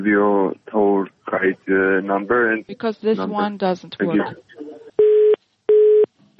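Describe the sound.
A telephone busy or disconnect tone sounds as calls to a travel agency's number keep getting cut off: three steady, evenly spaced mid-pitched beeps follow a stretch of talking.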